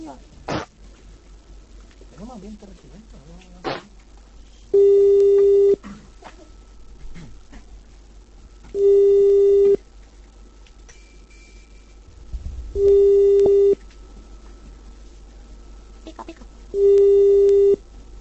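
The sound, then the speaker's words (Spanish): A telephone ringback tone sounds four times, each a steady, buzzy pitched tone about a second long at even intervals, over low background hiss after a few faint clicks and handling noises. “está haciendo uso de su dedo índice para poder discar el teléfono de la víctima.”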